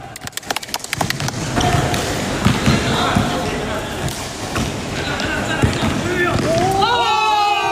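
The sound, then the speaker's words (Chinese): A basketball bounces as colleagues, young water conservancy workers, play a game together at night. A quick run of sharp dribbles opens, then many looser thuds and game noise follow, with voices mixed in. “为了排解日常工作带来的压力，他常常组织同事一起打球，借此放松紧绷的神经。”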